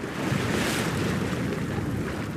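Sea waves surge at Karaburun Port, site of a wave energy production facility, in a dense, continuous roar of surf mixed with gusty wind buffeting the microphone.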